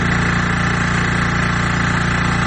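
A generator runs at a clean-water distribution point in Kandahar city, making a loud, steady droning hum with a low, even pulse that does not change.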